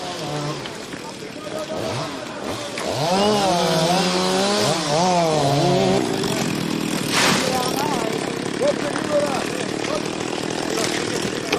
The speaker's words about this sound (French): Et aussi des tronçonneuses pour couper les arbres à proximité des maisons.